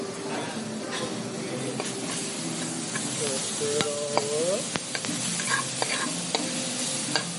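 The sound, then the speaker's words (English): Sausage sizzles steadily in a pan as a knob of butter is stirred in, with soft scraping strokes of the stirring over a continuous frying hiss. “So we're gonna throw a knob of butter in there, and then we'll just kind of give this a stir.”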